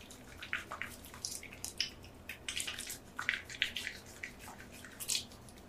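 Soft, wet, squishy sounds of a skincare product pumped onto a wet face, close and quiet, with irregular clusters of slick drips and squelches.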